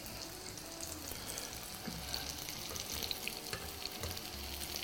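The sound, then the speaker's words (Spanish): Food fries quickly in a pan over heat about to be lowered, a faint, steady sizzling hiss with scattered light crackles throughout. “Hay que ir deprisa. Porque eso se fríe rápido. De hecho, voy a bajar el fuego.”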